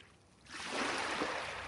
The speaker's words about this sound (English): Waves lapping the beach, wind bending the trees and the tides pulling the pebbles along the shore.